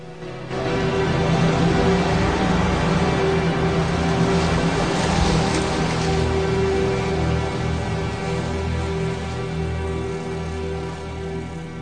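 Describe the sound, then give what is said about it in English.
Motor of a rubber dinghy with naval crew pulling away from a waterfront at night, a steady, loud engine drone with a low hum that starts abruptly and holds evenly, easing slightly toward the end, with no talk. “the boat motors off into the night.”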